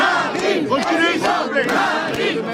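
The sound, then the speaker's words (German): A crowd of supporters cheers at a campaign rally on a town market square in provincial France. The many voices make a loud, sustained roar that carries on without a break. “Wie auf dem Marktplatz des Städtchens La Flèche versammelten Anhänger von Marine Le Pen bereiten ihr den gewünschten Empfang.”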